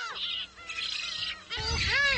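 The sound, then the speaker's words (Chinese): Black-faced spoonbill chicks squabble noisily over food on an island in early summer, with faint, high, continuous chirps and squeals that overlap one another. “雏鸟们为争抢食物开始了吵闹。”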